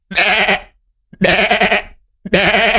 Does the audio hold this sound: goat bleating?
yes